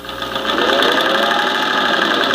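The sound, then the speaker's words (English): A sewing machine stitches up a torn cape with a steady, loud mechanical whirr that holds an even buzzing hum for the whole stretch, with no talk over it. “Dancing around and looking for records, I seem to have torn my cape. I need to see if I can sew it up here real quick.”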